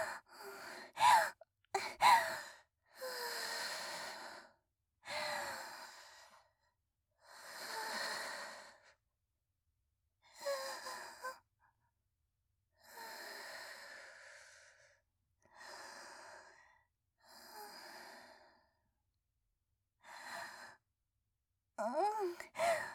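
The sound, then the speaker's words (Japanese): Deep breathing: many slow, heavy breaths drawn in and let out, each a long airy whoosh separated by quiet pauses, a few ending in a soft voiced sigh. “圧迫感すごいんだね。深呼吸だね。”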